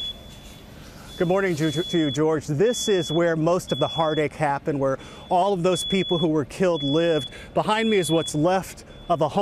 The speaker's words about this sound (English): I don't know if you can hear that. That is the sound of the fire alarms that are still going.